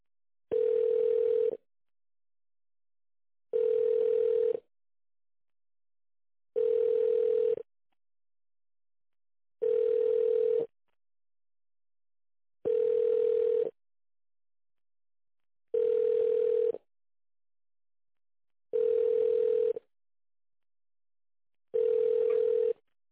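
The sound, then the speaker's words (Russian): Telephone ringback tone on the line while a call is being transferred: eight steady mid-pitched beeps, each about a second long, separated by longer silent gaps. “я вас переключу на другого специалиста. Сейчас подождите.”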